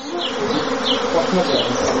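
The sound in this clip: Bees from a backyard beekeeping setup on a small vegetable farm buzz in a dense, continuous drone. The steady hum fills the whole stretch with a few louder individual buzzes rising and fading over it.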